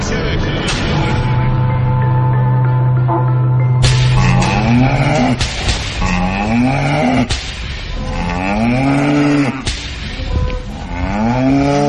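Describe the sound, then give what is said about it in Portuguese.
Berrante cattle horns blown at a live rodeo-style DJ show in Boa Vista de Quatipuru, loud bellowing moo-like blasts: a long sustained low drone gives way to several rising, swooping horn calls over a continuous backing din. “Que toquem os berrantes, a cidade vai estremecer.”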